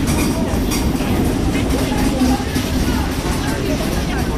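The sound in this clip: Train station ambience at Bulle station, a steady, dense low rumble with constant noise that holds evenly throughout.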